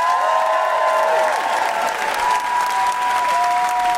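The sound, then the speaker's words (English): Applause from a live comedy show audience, a steady, loud wash of clapping with some whoops rising over it, lasting throughout without a break. “Please put your hands together and make incredible woohooing noises for the wonderful Camilla Cleese.”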